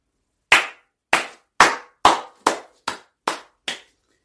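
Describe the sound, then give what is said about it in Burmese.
A handheld clapper used as a protest noisemaker on International Human Rights Day gives eight sharp, loud clacks with short decays, struck at a steady, slightly quickening pace with silence between. “ပြည်သူများအတွက်လက်ခုပ်တံဖြစ်ပါတယ်။ဒီလက်ခုပ်တံကတော့အပြည်ပြည်ဆိုင်ရာလူ့ခွင့်များနေ့ဒီဇင်ဘာလ10ရက်နေ့ရဲ့”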